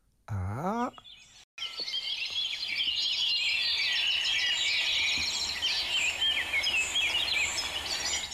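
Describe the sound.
A flock of birds in a forest with good trees fills the air with dense, continuous chirping and twittering after a brief gap, a steady high chatter of many overlapping calls.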